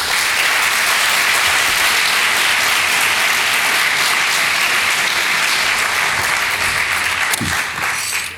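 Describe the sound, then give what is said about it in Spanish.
Audience applause welcoming a speaker to a lecture on caves and enchanted beings in Spain: loud, sustained clapping from many people that holds steady before easing off at the end. “Muchísimas gracias por aplaudirme”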